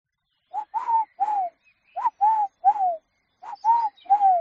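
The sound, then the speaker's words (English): Collared dove calling, the male's song to a female: low, hollow coos in three-note phrases, repeated three times with short pauses between, each phrase a steady rhythm of soft hooting notes alone in quiet surroundings. “so that's the collared dove, 3 sounds. The call of a collared dove”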